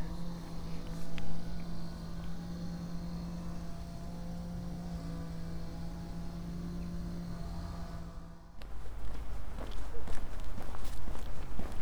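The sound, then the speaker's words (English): Footsteps of a person on a short walk to Perranporth, a steady run of footfalls over a constant low drone. The drone cuts out near the end, and rougher, louder scuffing follows. “It's a short walk today to Perranporth.”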